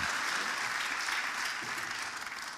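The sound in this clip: An audience in church applauds to welcome a speaker, steady massed clapping that holds at an even level for a couple of seconds with no voices above it.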